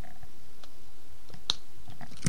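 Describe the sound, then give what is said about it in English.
A hard candy lollipop being bitten, cracking like thin glass: a few sharp, crisp clicks and crunches over a low, steady hiss, the loudest near the end. “Bite them. I'd say it's pretty much like biting thin glass.”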